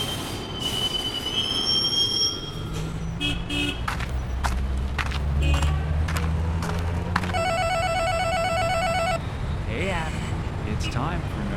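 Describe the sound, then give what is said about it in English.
A train arrives at Downtown Santa Monica station with high, piercing wheel squeals over a low rumble, then a pulsing electronic chime; a voice makes an announcement. “now arriving downtown Santa Monica Station.”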